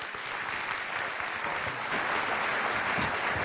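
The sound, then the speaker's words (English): Audience applause in a morning church gathering as a guest speaker is welcomed: continuous, dense clapping at a steady, fairly loud level for the whole stretch. “would you please put your hands together, join me in welcoming Will Davis.”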